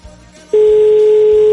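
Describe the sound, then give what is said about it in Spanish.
A single long, steady ringback tone from an unanswered telephone call, following a faint lead-in. “No nos contesta Marta.”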